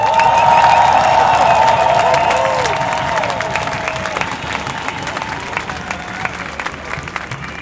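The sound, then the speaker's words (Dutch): A loud crowd at a gathering claps and cheers as a speaker is welcomed. High whoops ring out over dense applause at first, then the cheering drops away and steady clapping continues, slowly easing in volume. “Mag ik een daverend applaus voor Dina Bons?”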